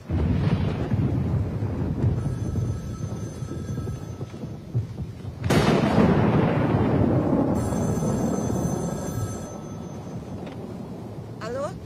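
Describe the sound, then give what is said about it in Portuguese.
A thunderstorm rumbles with dense low thunder and wind-like noise throughout, loud and steady, with a sharp, heavier crack of thunder swelling up midway and rolling on. “Eu adoro tempestade de raios.”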